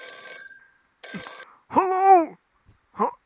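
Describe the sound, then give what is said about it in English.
A telephone rings with an incoming call in two bright trilling bursts, and then a voice speaks briefly. “Looks like we've got another caller on the line there. Yeah, the caller ID's withheld though. I think we'll answer it anyway.”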